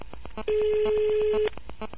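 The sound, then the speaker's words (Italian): A telephone line tone plays while a call is transferred to customer service: a single steady, mid-pitched tone lasting about a second, heard over faint background sound. “Resti in attesa. Stiamo trasferendo la sua chiamata al 155.”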